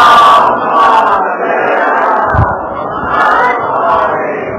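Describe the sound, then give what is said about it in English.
An audience loudly chanting salawat in unison in response to a religious speaker: a dense, sustained roar of many voices that swells and dips slightly without a break. “If you're with me, inshallah, send me a nice loud salawat ala Muhammad wa ala Muhammad.”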